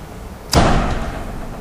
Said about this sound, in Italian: Scusate che chiudo sta finestra che scoccia.